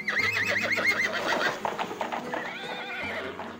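A horse whinnies with a quavering neigh as a king rides away from the city. Clopping hoofbeats follow the neigh.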